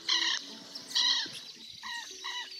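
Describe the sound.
Harsh, screeching calls of a southern lapwing flying away from a lagoon, heard as a few short harmonic bursts. The first two are louder, and the later ones are fainter and clipped.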